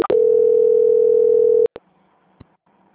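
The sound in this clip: A steady telephone line tone holds during a call transfer, one loud, unbroken mid-pitched note lasting about a second and a half. A couple of clicks cut it off, leaving faint line hiss and a brief tick.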